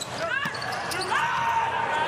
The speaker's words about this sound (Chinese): 罗瓦诺的发球，